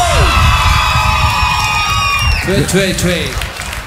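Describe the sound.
Clapping and cheering from an evening concert crowd in Hljómskálagarður park, Reykjavík: loud, continuous applause with whoops, easing slightly as a voice speaks over it near the end.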